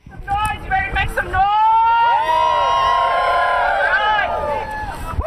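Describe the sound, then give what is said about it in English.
Protesters gathered outside the UAA library on a cold, windy day chant slogans: a short spoken opening gives way to loud, sustained, overlapping crowd voices. “A noisy group gathered outside in biting wind and falling temperatures to call attention to what was going on inside UAA's library. In traditional protest fashion, they waved homemade signs and chanted slogans.”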